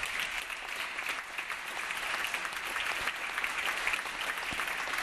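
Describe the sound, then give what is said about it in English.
Faint, sustained applause from California legislators during a governor's address, an even, continuous patter of many hands that keeps a steady level for several seconds. “I want to see a few Republicans clapping on that, if you could.”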